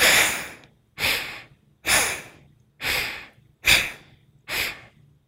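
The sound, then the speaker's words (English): Six slow breath sounds from an alternate nostril breathing exercise, each a soft, airy rush that swells and fades, evenly spaced about a second apart with short silences between. “And remember to switch nostrils between the exhale and the inhale. Inhaling both nostrils and exhale side one.”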